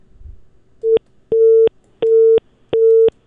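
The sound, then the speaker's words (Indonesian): Busy tone sounds after a phone call disconnects: four loud, steady beeps of one pitch, evenly spaced. The first is shorter than the other three. No voices are heard. “Ya, nampaknya terputus. Nanti coba dihubungi kembali ya, Pak Haryanto.”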